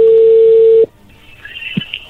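A telephone call connecting: a steady single tone holds for just under a second, cuts off abruptly, then faint line noise and a soft click follow.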